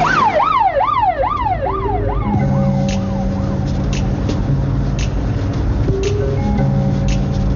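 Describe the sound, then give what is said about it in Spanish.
A police patrol car's siren wails in rapid rising and falling sweeps as it passes on a road beside a forest, then gives way to steadier held tones over a constant low engine rumble. “el deportivo negro se cruza con un coche patrulla”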